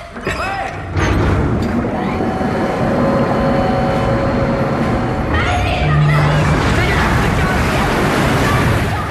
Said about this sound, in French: De l'eau partout. Ça a été trouvé. Poséidon.